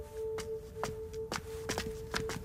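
Footsteps of a person walking away after leaving a home, a few soft, uneven steps over a steady low hum, with no voices.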